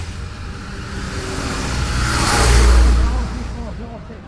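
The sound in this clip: A car pulling away and accelerating, its low engine rumble rising to a loud roar around the middle and then fading again.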